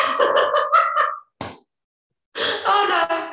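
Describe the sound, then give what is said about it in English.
A dog barking in a few short, sharp bursts, separated by brief gaps, with a person talking around them. “That was a dog, not Dave.”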